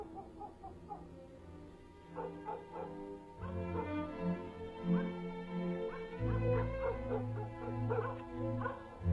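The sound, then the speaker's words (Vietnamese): Village dogs barking at night: faint, scattered barks, yips and whimpering calls overlap throughout, with a steady low hum running beneath the second half. “Ở ngoài kia chó trong làng đêm nay chẳng hiểu làm sao cứ cắn dâm gian hết cả lên.”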